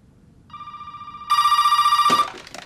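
A landline telephone rings in a bedroom with a steady, rapidly trilling electronic tone that starts moderately and then grows louder before cutting off. No voices.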